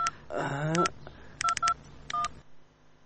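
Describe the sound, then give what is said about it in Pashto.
Telephone keypad tones from dialing a call home: clusters of short, bright beeps in quick bursts, with a brief voice near the start, then quiet. “ته صبر، زه کور ته یو زنګ ووهم. زنګ ووهه.”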